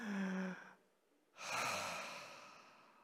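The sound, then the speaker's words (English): A gathered crowd takes a big, deep breath together, a broad breathy rush that swells after a brief pause and then slowly fades. A short tonal sound dies away before it. “Everybody, take a big, deep breath.”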